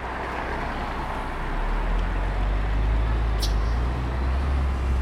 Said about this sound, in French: En bas, les bus circulent encore.